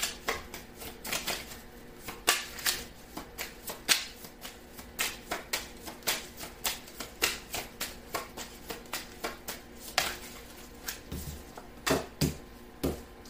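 Tarot cards being shuffled and drawn: many crisp riffling snaps and slaps in a loose, fairly regular rhythm, faint and with no talk.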